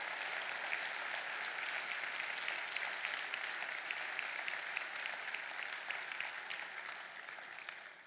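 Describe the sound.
An audience applauds a pastor with faint, steady clapping that holds evenly before tapering slightly at the end.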